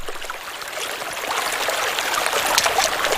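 Steady rain with trickling water on a stormy, wet day: a continuous hiss with dripping and splashing that grows slightly louder toward the end.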